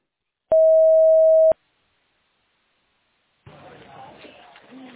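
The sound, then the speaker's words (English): A voicemail recording tone: one steady, mid-pitched beep lasting about a second, then a short silence before a caller starts speaking over a narrow, phone-like line. “Record your message at the tone.”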